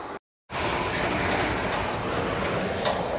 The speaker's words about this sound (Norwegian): Ok, så det er fem minutter nå på skierg. Se å komme så langt du kan.